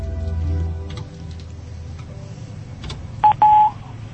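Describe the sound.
Keypad tones of a telephone call being dialed: two short, clear beeps near the end, the second held longer, after a quiet stretch of low hum.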